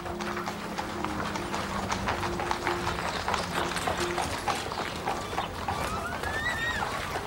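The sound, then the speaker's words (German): A horse-drawn cart rolling out through a town gate, hooves clip-clopping in a quick, even rhythm over a constant rumble of wheels, steady and moderately loud throughout. “im Schatten eines hinausrollenden Pferdefuhrwerks entging Martha”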